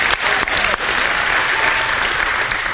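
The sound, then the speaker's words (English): Church audience applauding loudly, a thick, continuous roar of clapping that stays strong and level for nearly three seconds. “can we make an obnoxiously loud round of applause welcoming our church family at their homes?”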